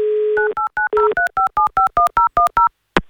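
Telephone dialing: a steady dial tone gives way to a quick, evenly spaced run of many short, loud DTMF key tones, followed by a brief pause and a sharp click.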